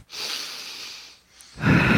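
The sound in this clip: A deep breath: a long, airy inhale of about a second fades into a short pause. Then a louder, rushing exhale begins.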